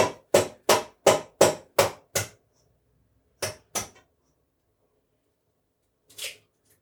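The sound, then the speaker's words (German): Eggs tapped against a hard edge to crack them: a quick run of seven sharp taps, then two more, then a single softer crack, with silence in between. “Wo sind denn die Eier? Die habe ich da schon hingelegt. Oder nicht? Ah, hier sind sie. So. Eins. Pass auf, dass keine Schale reinkommt.”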